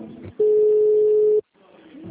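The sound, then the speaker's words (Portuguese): A telephone call-transfer tone: one steady, low-pitched beep lasting about a second, set between stretches of muffled line noise. “Estamos transferindo a sua ligação para um de nossos atendentes.”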